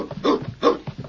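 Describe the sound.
A dog gives a few short, noisy whimpering cries in quick succession, two stronger bursts among fainter ones, fairly quiet overall.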